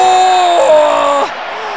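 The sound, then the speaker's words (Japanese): Loud cheering and applause fill a competition venue as Japan finishes its gold-medal run, a dense roar of the crowd with shrill whistle-like tones over it that drops off sharply near the end. “会場内が大きな拍手と歓声で包まれます。”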